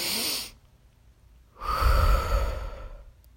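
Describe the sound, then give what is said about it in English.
A deep breath drawn in through the nose, then, after a short pause, a longer, louder exhale pushed out through the mouth. The breathing is soft and airy and no one speaks. “Take a deep breath in through your nose and out through the mouth.”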